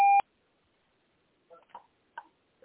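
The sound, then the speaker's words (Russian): Voicemail recording-start beep on a phone line: one short, loud, high electronic beep at the very start, then near silence broken by a few faint brief sounds. “Оставьте сообщение после сигнала.”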